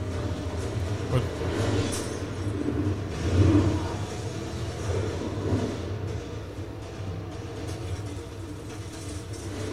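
A car engine roars as it accelerates on nitrous, a dense low rumble that swells to a louder surge early on and then holds at a steady drone.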